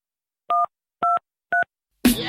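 Three touch-tone keypad beeps as a telephone number is dialed: evenly spaced, steady dual tones of equal length, followed by a short noisy burst.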